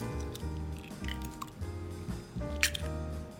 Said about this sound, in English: Then after you have that, we will crack in 1 egg.